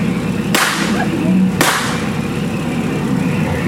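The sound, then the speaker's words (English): Two sharp, loud warning gunshots crack about a second apart on a Disneyland boat ride, over the steady low rumble of the boat's engine. “I'm gonna fire some warning shots to scare them off. Please cover your ears, folks.”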